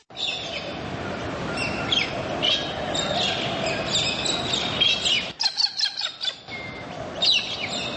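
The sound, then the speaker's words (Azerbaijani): Birds calling in a Caucasus mountain forest: scattered high chirps and tweets over a steady hiss, with a brief lull near the middle before the calls resume. “Qırqovul, göyərçin, bildirçin, qumru, Qafqaz dağlarında, Qafqaz meşələrində hansı quşlar yoxdur ki?”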